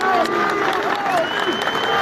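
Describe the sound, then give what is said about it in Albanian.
Protesters demanding justice cheer in front of the Basic Court in Skopje, a loud, dense crowd roar of shouting voices and clapping that runs steadily throughout. “Protestuesit me brohoritje kërkojmë drejtësi për Almirin dhe pa drejtësi, s'ka qetësi, janë drejtuar para gjykatës themelore të Shkupit.”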